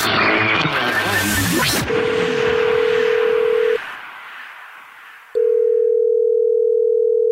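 Ringback tone of an outgoing phone call as a radio show calls back a listener who texted in: two long, steady, mid-pitched rings separated by a silent gap, following a brief burst of music.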